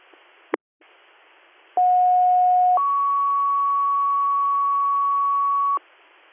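Radio dispatch paging tones: a brief click, then a steady lower tone held about a second, followed by a higher steady tone held about three seconds, over faint radio hiss.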